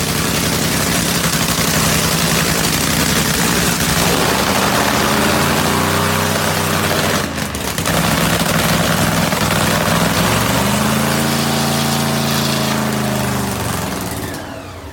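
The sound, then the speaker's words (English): Drag racing car engines at an NHRA event roar loudly and steadily, with layered droning engine tones that shift and climb in pitch, easing off slightly at the very end. “The sights and sounds of the NHRA. There's nothing better than that.”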